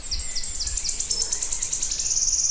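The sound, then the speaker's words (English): Wood warbler song: a high-pitched run of repeated notes that speeds up into a continuous shivering trill, clear and fairly loud over a quiet background. “That would be about the best ever recording of wood warblers I'll ever get.”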